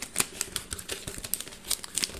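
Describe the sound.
Crisp paper crinkling and tearing as a birthday gift card and package are opened: many quick, sharp rustles and rips in an uneven rhythm, fairly quiet, with no talking.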